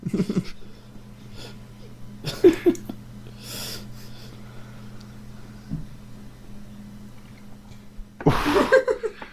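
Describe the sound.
Loud breathy exhalations of air from a man's mouth, a few short, noisy puffs over a low steady hum, the last one longest and strongest.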